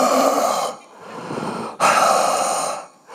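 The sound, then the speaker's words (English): A voice imitates heavy, raspy mouth breathing over the phone: a few long, loud rasping breaths alternating with softer, hissy stretches, with no words spoken. “I'm like a mouth breather, so she's on the other line listening to Darth Vader just,”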